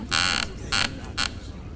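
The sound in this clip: A chair creaks in three squeaky bursts: the first is longest, the second is shorter and the third is a brief squeak, each standing out over a faint hum.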